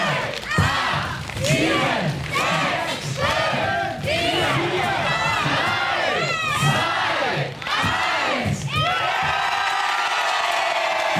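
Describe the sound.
Theatre audience at a small improv stage shouting just before a world-record theatre marathon: loud crowd yells in rhythmic waves, then a sustained roaring cheer at the end.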